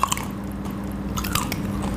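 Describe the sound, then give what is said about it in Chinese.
A crunchy bite into cooked duck cartilage: a sharp crunch at the start, then steady, moist, crunchy chewing with scattered crisp cracks and no talk. “软骨那边咬一口。”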